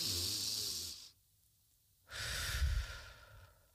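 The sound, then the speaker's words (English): A deep breath in and out: a long, airy inhale, a second of near silence, then a slow, breathy exhale that fades away, quiet and alone. “let's take a deep breath.”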